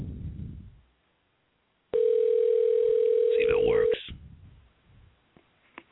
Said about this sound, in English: Let's try the dial. Here we go. Dial that number.